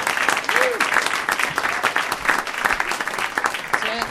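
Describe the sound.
Audience applause greets a comedian as he walks on stage, a steady, dense wash of clapping that holds at an even loudness from start to finish.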